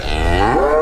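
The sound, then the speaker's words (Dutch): A mother cow, nearly five years old, calls her calf with one sustained low moo, rich in harmonics and loud, with no other sounds. “Dus ze moet roepen, ze moet haar stem gaan gebruiken om het kalfje naar haar toe te roepen.”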